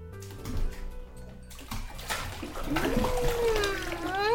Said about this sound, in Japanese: 本当は湯船に入る前に洗った方がいいけれど、まずは温まらないと。最初に私が入って。